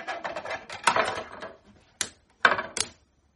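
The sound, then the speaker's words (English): A container is pushed back into place after its vegetables were dumped out. A run of light clattering knocks comes first, then three sharp, separate clicks follow after short pauses. “Okay, I'm going to reinsert my container. I dumped out all the vegetables.”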